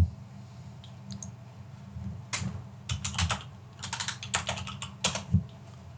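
A message is typed on a computer keyboard in quick bursts of many crisp key clicks, with brief pauses between runs over a low background rumble.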